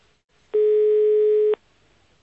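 Telephone tone while redialing a call: one steady, buzzy low-pitched tone lasting about a second, then a brief pause and a short click.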